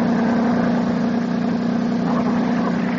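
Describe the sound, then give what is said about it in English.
A big motorboat engine gives a loud, steady drone with a strong low hum that holds constant without clear change. “Oh, Jack, watch out. There's a big motorboat coming this way.”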